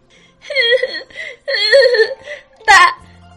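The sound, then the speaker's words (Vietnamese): A young nun sobbing and crying while kneeling on the ground, voiced by a performer: several whimpering, wavering bursts, then a sharper wailing cry near the end. “Tiểu ni cô cãi không lại Phản Lục, dứt khoát quỳ rạp trên mặt đất, khóc đến nước mắt nước mũi tèm lem, nghẹn ngào nói.”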